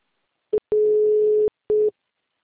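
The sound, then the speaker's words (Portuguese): Call-progress tones heard by a caller phoning a mobile: a brief blip, then a steady mid-pitched tone of under a second, then a shorter matching tone, clean and alone without talk. “Aqui pra mim tá dando o que tá chamando? Normal? Eu que tô ligando.”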